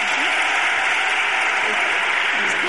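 Applause for a guest: a dense, continuous wash of clapping at even loudness throughout, with no separate individual claps standing out.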